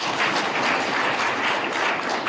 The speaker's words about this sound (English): These comrades are at every event of Omaheke, and they have partnered up with Omaheke so beautifully, and they deserve a round of applause.